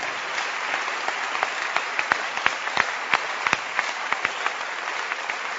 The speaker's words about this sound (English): Keep clapping.